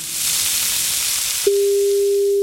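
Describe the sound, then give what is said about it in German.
A telephone call being placed: a sizzling, hissing noise fills the first half, then a single steady electronic tone starts and holds unbroken and loud until the end. “Na, da rufen wir doch gleich mal an.”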